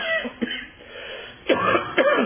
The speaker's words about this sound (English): Excuse me, woke up with a cough this morning